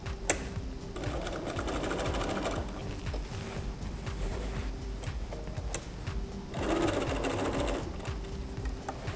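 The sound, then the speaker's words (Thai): A sewing machine backstitches at the top of a pocket on an apron, its motor whirring steadily with rapid stitching throughout and a louder burst near the end. “พอมาถึงตรงปลายของด้านบนปากกระเป๋าแล้วนะคะเราก็ย้อนค่ะย้อนอีกสักหนึ่งครั้งนะคะ”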